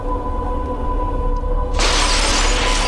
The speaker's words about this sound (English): As you guys walk into the room, the chandelier drops just where you were standing moments ago and shatters on the floor.